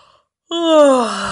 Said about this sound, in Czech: Lev zívl.